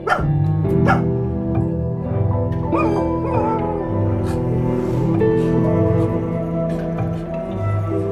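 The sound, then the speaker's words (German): A dog barks repeatedly, mixing sharp barks with higher whining yips and whimpers, loud and continuous throughout. “Ein Hund bellt.”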